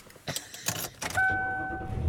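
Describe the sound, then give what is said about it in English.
Car interior sounds while driving home: a few soft knocks and rustles, then two steady, clear, chime-like tones over a low, quiet engine rumble. “And I am driving home.”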